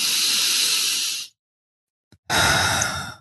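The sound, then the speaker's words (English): Big deep breath during a guided tapping meditation: a long, airy inhale, then a silent pause and a breathy exhale, heard alone with no talk. “Big deep breath.”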